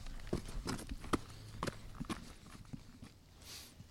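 Footsteps walk along a trail toward the porch of Top Cottage in Hyde Park. Irregular, faint crunching steps fall over a soft background hiss and fade near the end.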